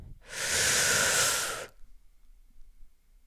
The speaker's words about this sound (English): So on that note, I'd like to take a giant, big, deep breath